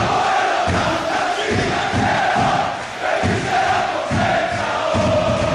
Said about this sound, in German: Und dieser Verein heißt Hapoel Tel Aviv. Und so hier klingen die Fans in der Fankurve von Hapoel.